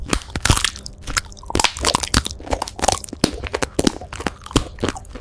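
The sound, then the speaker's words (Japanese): Crunchy bites into Minecraft-style food, many crisp, irregular crunches and chewing crackles following one another closely, fairly loud with no talking. “マイクラ風を食べていく。”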